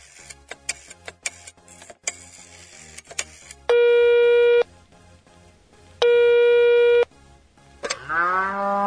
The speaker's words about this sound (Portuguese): Nós vamos ligar para um call center para ganhar Todd Snacks de graça. Olha aí. Olha aí. Então ligue para a vaca. Vamos ligar.